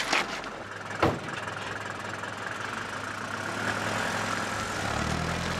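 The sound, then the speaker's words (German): A taxi engine idling and then driving off, a steady low rumble broken by a single sharp thump early on. The engine grows slightly louder and heavier toward the end. “Es sind nur zwei ausgestiegen und das Taxi fährt weiter.”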